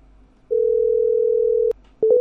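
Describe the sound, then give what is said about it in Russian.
Telephone dial tone on a call that fails to get through: one steady mid-pitched tone lasting just over a second, then a brief gap and a few short beeps. “на этот телефон что-то не дозвонились”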